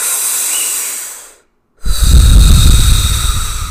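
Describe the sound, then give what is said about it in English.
Deep, powerful breaths in and out through the mouth during a breathwork exercise. A long, loud, rushing breath fades out, a short silence follows, then another forceful, noisy breath begins and stays loud to the end. “And then you take deep, powerful breaths in and out the mouth and try that for 3 minutes. And so your breathing should sound like this”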